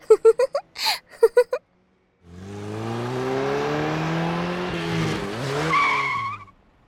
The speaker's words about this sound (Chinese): 油门踩得要炸天，不知道差点把我耳朵震聋了呀，讨厌死了。不要以为开了一辆高级跑车就出来嘚瑟